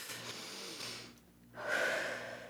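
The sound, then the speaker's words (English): A person takes a deep breath, heard as two long, airy, rushing breath sounds separated by a brief pause. The second is louder and breathier. “Should we take a deep breath?”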